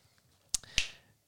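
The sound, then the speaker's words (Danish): Two sharp finger snaps in quick succession, crisp and bright, standing out clearly against a quiet background. “Så du det? Der knipsede du.”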